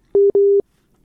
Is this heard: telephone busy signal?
yes